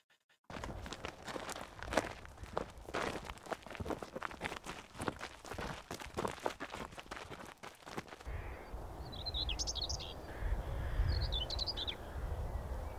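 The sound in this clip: Footsteps walking outdoors on a farm in Midlothian during a wildlife walk on a sunny day: many steady steps crunch along, then stop, leaving birds chirping and calling.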